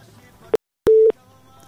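A telephone tone from a call that fails to connect: a brief sharp click, then a pause, then one steady mid-pitched beep lasting about a quarter second, loud against faint background hum.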